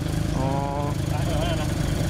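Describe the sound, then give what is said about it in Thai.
A tractor engine runs during flooding, a loud, steady low rumble and drone that continues throughout, with a brief voice over it. “รถไถนี่รถแท็กเตอร์นี่เขามาช่วยใช่ไหม”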